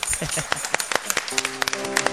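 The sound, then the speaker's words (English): Hand clapping from a church audience: scattered, irregular claps with uneven spacing over a steady background noise. “Give God a big hand clap.”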